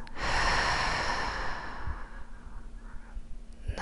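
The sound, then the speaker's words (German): Deep breathing in and out during a meditation with hands held in prayer position. A long, loud, airy breath rushes out first, then fades into quieter, softer breathing. “atme dreimal tief ein und wieder aus.”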